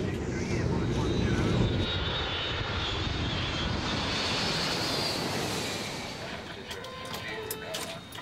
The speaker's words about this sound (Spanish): A las 9.03 p.m., el vuelo 648 hacia Egipto está listo para el despegue.